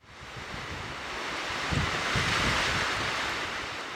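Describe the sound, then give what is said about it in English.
Strong Wyoming wind roars as a broad, steady rush with low buffeting rumbles. It swells toward the middle and eases slightly at the end, with no voices. “We all know the sound of wind, but how about a few facts?”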